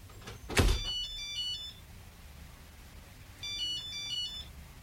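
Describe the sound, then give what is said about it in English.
A phone rings with an electronic ringtone, two bursts of high warbling tones separated by a pause of about two seconds. The ringing is faint over a low background hum, and a short thump comes just before the first burst. “Was that your phone?”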